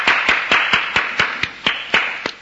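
A lone person applauds in a theatre with steady, evenly spaced hand claps of even loudness for a couple of seconds, and no other sound around them.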